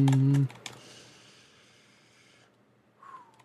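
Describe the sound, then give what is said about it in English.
Typing on a computer keyboard: a quick run of soft, rapid key clicks that carries on for about two seconds and then tapers off, with no voices over it. “While I type that one in.”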